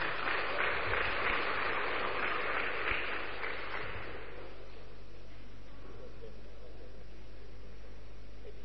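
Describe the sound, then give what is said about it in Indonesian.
Applause from a seminar audience for the speakers, dense clapping that holds steady for about four seconds and then fades away. “Kembali kita beri aplaus dulu buat para pemateri.”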